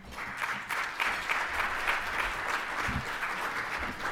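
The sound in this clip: Steady audience applause welcomes a professor before his talk at a Berkeley and Stanford event, a dense, even clatter of many clapping hands that holds for about four seconds with no voices over it.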